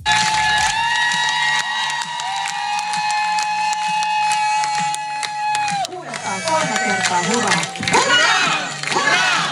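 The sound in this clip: A crowd cheers, shouts and applauds at the finish line of a long-distance charity run. A sustained high tone is heard at first, then a loud burst of excited voices.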